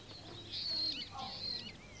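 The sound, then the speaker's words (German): Starlings chirping in a garden, with a few faint, thin high chirps and twitters rising briefly over a quiet, steady background. “Die Starre zwitschern.”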